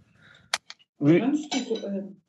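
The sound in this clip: Knife and fork clinking on a plate while cutting roast duck breast served on pointed cabbage: two short metallic clinks, followed by people talking.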